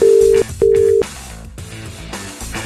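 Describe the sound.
An unanswered telephone call rings out as two steady, mid-pitched ringback tone bursts with a short gap between them, with music continuing in the background.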